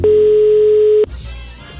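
A telephone call tone: one steady, mid-pitched electronic tone holds for about a second, then cuts off abruptly into low, noisy line hiss.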